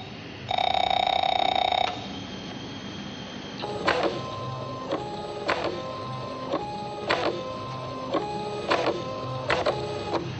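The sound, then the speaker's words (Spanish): A printer prints a document sent from a laptop: a loud, steady mechanical whir first, then a quieter stretch followed by many rhythmic clacks and feed strokes repeating at a fairly even pace to the end. “Martín termina un escrito en su ordenador portátil y pulsa imprimir”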